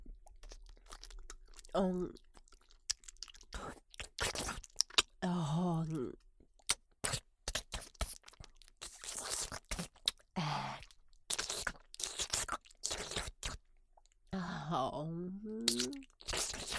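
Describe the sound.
Chewing and crunching of a fried cutlet: many sharp, crisp bites and crunches in an irregular rhythm, broken by brief voiced murmurs between mouthfuls.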